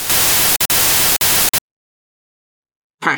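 Loud hissing static from a suspicious device in a supermarket breaks into a few broad bursts separated by tiny gaps, then cuts off abruptly into silence before a short burst of noise returns at the end.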